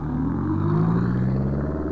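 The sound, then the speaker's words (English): An old car's engine runs with a steady, low, throaty rumble and a rough droning tone. It holds unbroken from start to end, with no voices. “I leapt into the famous Marlene-mobile. A Porsche purrs like a kitten, a Rolls-Royce hums like a bird, and a Marlene-mobile croaks like a frog with a flu.”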